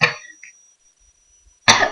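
Two harsh human coughs, a short burst at the very start and a longer, rougher one near the end, separated by near silence.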